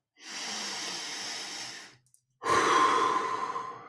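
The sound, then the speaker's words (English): A deep breath taken alone: two long, airy breath sounds separated by a short pause. The second is louder and more voiced, and it fades out at the end. “So just take a deep breath”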